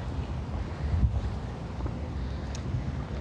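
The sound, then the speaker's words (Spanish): Outdoor wind on a street buffets the microphone, making a steady, fairly loud low rumble and rushing noise that runs the whole time with small surges and no voices. “Otra vez vuelve el viento.”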